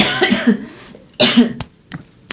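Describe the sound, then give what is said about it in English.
A person coughs a few times, harsh, breathy bursts of uneven length with short pauses between them. No speech is heard. “sorry, I've got a cough”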